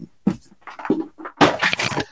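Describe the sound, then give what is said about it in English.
A dog makes noise in a room, giving a few short bursts of whining and yelping vocalizations separated by brief pauses, with a longer, louder run of sound toward the end. “Number two, sorry about the dog”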